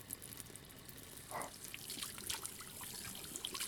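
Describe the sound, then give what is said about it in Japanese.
Tap water runs as soapy hands and the faucet handle are rinsed, making a soft, steady hiss of flowing water that stays faint throughout. “蛇口のハンドルの泡泡も静かにそーっと洗い流して、お水を止めて、”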